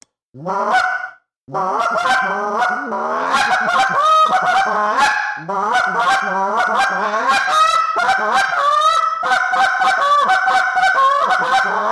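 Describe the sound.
Goose call blown to imitate goose honks, clucks and spit notes: a loud, fast, nearly unbroken run of many sharp, nasal honking notes after a brief opening pause.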